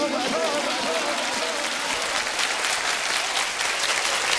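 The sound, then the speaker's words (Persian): A crowd claps its hands in dense, continuous applause. The bright, even clatter of many palms holds steady throughout with no clear pause. “اینجوری دست میزنم”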